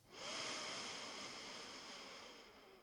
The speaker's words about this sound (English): We'll take 3 deep breaths. So just the way you are, long, full breath in through the nose.